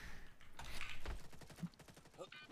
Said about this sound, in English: Hey, stop shooting me and kill Groza.